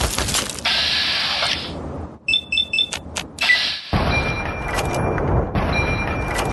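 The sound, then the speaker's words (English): Automatic weapon fire in a video game: a quick run of several sharp shots in a tight rhythm, set between longer stretches of mechanical game noise. “Got an automatic weapon, as you can tell.”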